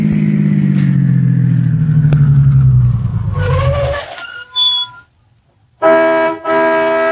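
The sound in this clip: Car engine pulling into a gas station at night on a lonely road through the Alleghenies, a low steady rumble winding down over about four seconds, followed by a few bright ringing dings.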